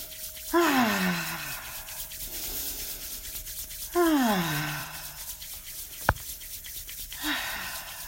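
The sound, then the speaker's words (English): Hands rubbing together to generate heat during a guided eyes-closed relaxation, heard as a few soft swishing friction bursts, each paired with a falling tonal glide over a faint steady tone. “With your eyes still closed, rub your hands together and generate some heat and warmth.”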